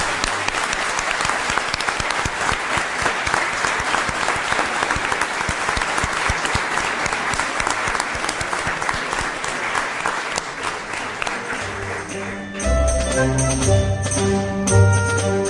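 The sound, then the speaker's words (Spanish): Audience applause from a live crowd in León, Spain, as dense, steady clapping for about twelve seconds, after which music comes in and takes over to the end. “a León se le va a escuchar ahora mismo en toda España con vuestro aplauso, aplauso de nosotros hacia vosotros.”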